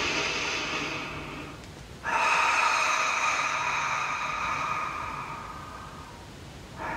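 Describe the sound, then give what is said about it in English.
A deep breath is drawn into the diaphragm and belly during a guided meditation. The airy inhalation swells suddenly and then tapers slowly over several seconds, set against a soft, sustained tonal drone. “Deep breath into your diaphragm, into your belly.”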